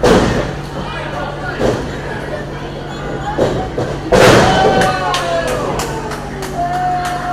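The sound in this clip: A blow lands in a wrestling ring with one heavy, loud thud midway, amid a few smaller thumps and knocks, all under ongoing talk.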